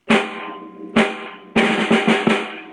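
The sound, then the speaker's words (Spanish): Snare drum of a drum kit struck five times: two spaced, sharp cracks with a rattling buzz, then three quicker hits in a row, each decaying fast. “Por acá tenemos el redoblante, que suena así.”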